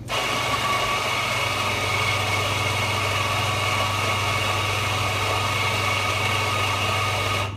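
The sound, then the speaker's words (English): A coffee grinder's motor whirs steadily while grinding coffee beans into fine grounds, a continuous buzzing drone over a low hum that holds level throughout with no breaks. “So let me show you how the grinder works.”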